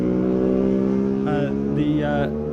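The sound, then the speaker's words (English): A sport bike races past on a mountain road course during a practice session: a loud, sustained engine drone at a steady pitch, with two bursts of higher whine in the second half. “Johnny Stewart, the last of those on the red plates for those sport bikes, who's having a top week so far for practicing. There's number 18 coming through.”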